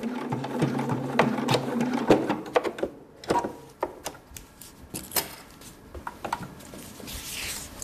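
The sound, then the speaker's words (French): A sewing machine stitches a hair prosthesis, a wig for chemotherapy patients, in a hairdressing salon in Peseux, canton of Neuchâtel. A steady rhythmic whirring hum gives way to many irregular clicks and soft taps. “Sa machine à coudre trône en bonne place dans son salon de coiffure de Peuzeux, dans le canton de Neuchâtel.”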